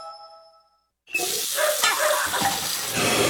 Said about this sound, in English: Ugh, no, not the sink. Not now. Plumbing problems never seem to happen at a convenient time.